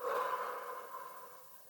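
Slow, deep breathing during a guided breathing exercise: one soft, airy breath out that gradually fades, heard alone and quiet.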